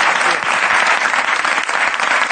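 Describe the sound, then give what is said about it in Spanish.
Loud audience applause for a guest on a Spanish comedy talk show, a dense, continuous burst of many hands clapping with slight swells and dips. “un aplauso a José María”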